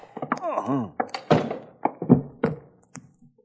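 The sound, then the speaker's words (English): A blow to the head with a gun butt lands as a dull thunk amid a string of short knocks and shuffles, mixed with a groaning, moaning voice. “you whack him over the head with a gun butt... And down he goes.”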